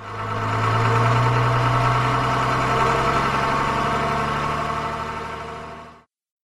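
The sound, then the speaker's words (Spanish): A farm tractor engine with thick tires, used for plowing muddy fields, runs with a steady, loud mid-pitched rumble and low throb, holding constant before cutting off abruptly near the end. “Un agricultor puede utilizar un tractor para arear un campo. Tiene llantas gruesas para moverse con facilidad en el lodo. Un tractor suena así.”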